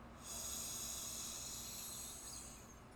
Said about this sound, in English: Let's take a nice deep inhale, just allowing this to be your deepest breath of the day so far.